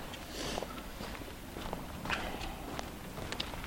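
Footsteps of someone walking along a road on a walking route near Dazaifu, Japan: faint, irregular light steps and scuffs over a steady low background hiss.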